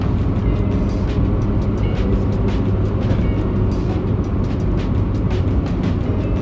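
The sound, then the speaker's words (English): A truck pulling a trailer passes close on the road, making a loud, continuous rumbling roar of tires and engine that holds steady throughout. “Whoa, this guy's going too fast. Sheesh, he's putting most of his trailer in front of us.”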